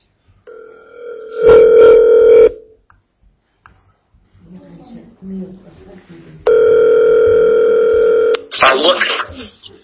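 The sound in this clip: A telephone dial tone plays while a caller is being redialed: two long, steady buzzing tones separated by a stretch of speech, followed by a short noisy burst as voices continue.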